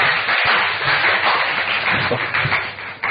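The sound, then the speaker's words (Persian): Applause from an audience fills the whole clip as a dense, steady patter of clapping that stays loud throughout and dips only briefly right at the end. “یه دست خواهش”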